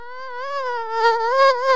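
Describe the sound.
A malaria-carrying mosquito buzzes in a steady, nasal, high whine with strong overtones. The pitch wavers slightly and the sound swells a little in the second half, with nothing else heard.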